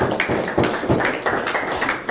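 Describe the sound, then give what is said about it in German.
Scattered applause from a small group at a gathering for chatting in Low German, thanking an elderly woman: a few uneven hand claps with sharp taps at irregular intervals. “Applaus für Helga, Dankeschön.”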